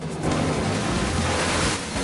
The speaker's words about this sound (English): The powerboat careens into a jetty, smashing it to matchwood, then speeds on down the river.